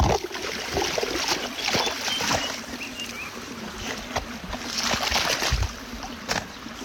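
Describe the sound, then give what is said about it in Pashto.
Water running and trickling out of an untied container, a continuous splashy flow with a few brief sharper splashes mixed in. “بس دا وتړه، نه ګورې اوبه ترې روانې دي.”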